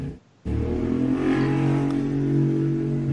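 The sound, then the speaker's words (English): A motorcycle engine revving next door starts abruptly after a brief silence, then holds a loud, steady, droning roar with a strong low hum to the end. “it's a douchebag next door with a motorcycle”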